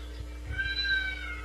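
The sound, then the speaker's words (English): A cat's meow, a single drawn-out tonal cry that sits faintly over a low background hum. “Get the cats out of here.”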